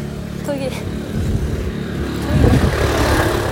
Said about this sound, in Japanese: 人通り多くない？さっきからなんか車とかバイクとか